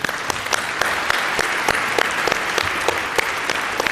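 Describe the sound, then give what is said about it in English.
An audience applauds the speakers at the close of a lightning-talk session on stage: steady, dense clapping from many hands continues evenly throughout, with no talk over it. “Big round of applause for all the speakers who came up on stage here.”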